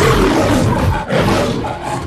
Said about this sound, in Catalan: la Metro Golden Mayer, el lleó que apareix al principi de cada pel·lícula i que sona així.